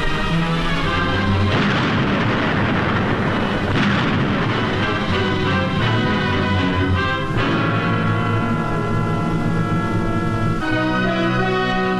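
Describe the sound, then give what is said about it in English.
High-explosive blasts destroying cave fortresses on Iwo Jima in wartime combat: a dense, continuous roar of booming detonations and rumbling, loud throughout with no talk. “Their fortress caves, saturating the island, are wiped out by high explosive.”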